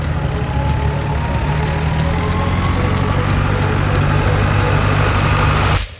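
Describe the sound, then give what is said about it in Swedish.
A military jeep drives along a road in a wartime scenario, its engine a loud, steady, low rumbling drone that continues throughout and then cuts off abruptly at the end. “Längre fram på vägen ser du en militärjip med den ukrainska treudden på som börjar köra åt ditt håll.”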